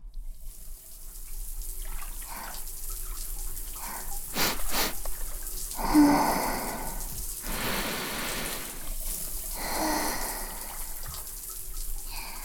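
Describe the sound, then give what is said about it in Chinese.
Water pours and splashes while a person's hair is rinsed: soft, intermittent bursts of running water that swell and fade over a quiet background. “来，我们把头发冲洗一下吧。”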